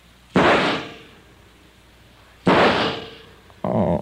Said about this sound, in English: You just pulled out your gun and you shot them both. Like this?